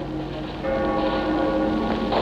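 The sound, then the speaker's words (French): Church bells peal in Paris at night for the city's liberation. After a brief quieter stretch, sustained overlapping tones swell in and ring on steadily above a rough background hiss. “Ce sont les cloches de la libération qui sonnent. Les Alliés ont franchi les portes de Paris.”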